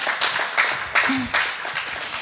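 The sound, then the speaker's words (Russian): Short burst of applause from the audience at a church service, a pattering of claps with a few louder surges, fading slightly toward the end. “Давайте под аплодисменты.”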